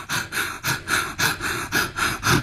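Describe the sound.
Bhastrika breathing exercise demonstrated with rapid, forceful breaths pushed in and out through the nose, forming a loud, evenly spaced run of sharp whooshing pulses with no talk.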